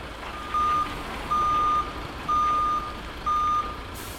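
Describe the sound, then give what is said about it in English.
A heavy goods vehicle sounds its reversing alarm while tulip bulbs are being unloaded. It gives four steady, identical electronic beeps at an even pace over a low engine rumble. “The sound of tulip bulbs being unloaded from HDVs will be a familiar one with many head gardeners this week”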